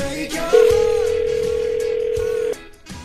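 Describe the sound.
A telephone dial tone while a call is being redialed: a steady, single-pitched hum that holds for about two seconds and then cuts off abruptly, over low background noise.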